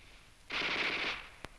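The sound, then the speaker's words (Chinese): A Japanese Type 11 light machine gun fires one rapid, crisp, bright burst lasting about two-thirds of a second, followed shortly by a single sharp isolated shot. “老葛，你听啊，那小歪把子声音多脆呀”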